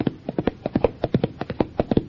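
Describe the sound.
Hoofbeats of a racehorse galloping toward the finish of a half-mile run make quick, sharp thuds in a fast, steady rhythm with many strikes packed into two seconds, and no voices over them.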